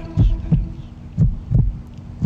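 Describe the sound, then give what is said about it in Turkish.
Heartbeat in a song: low, muffled thumps arriving in paired beats, two full double beats and the start of a third, over a faint steady hum. “Kalp atışlarım.”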